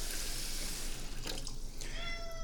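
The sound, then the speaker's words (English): Tap water running to fill a cat's water cup, heard as a steady, fairly quiet hiss and splash that continues throughout, with no speech. “So we're going to fill up the kitty water. Yes, I'm filling up your kitty water!”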